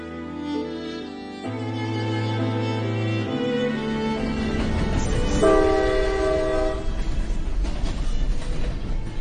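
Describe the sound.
A train at a railway station sounds its horn in sustained steady tones over a continuous rumble of rolling wagons. The sound grows fuller and stays loud to the end.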